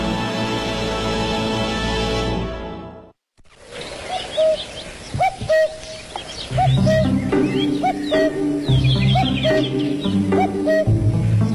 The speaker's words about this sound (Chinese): 听见我的叫声了吗？布谷布谷，所以呢，我的名字又叫布谷鸟。